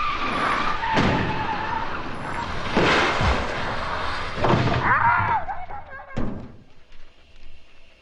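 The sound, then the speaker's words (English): A car accident with skidding tyres: steady road noise is broken by several heavy thuds and a brief high screech near the middle. A final sharp impact is followed by a low, fading rumble. “we don't see the automobile accident that opens Blue. We only hear it.”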